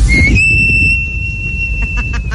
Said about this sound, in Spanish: ¿Sabes que estás en México cuando escuchas por las noches al de los camotes y suena así?